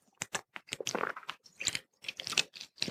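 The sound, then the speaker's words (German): Soft mouth sounds of a person taking a sip of a drink: quiet, irregular wet clicks and swallowing bursts, repeated many times and heard alone without talk. “Ja, jetzt trinke ich gerade einen Schluck und dann machen wir weiter.”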